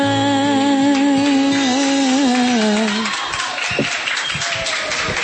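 A live singer holds a final note over music. A live audience then breaks into applause and crowd noise, which fills the last couple of seconds.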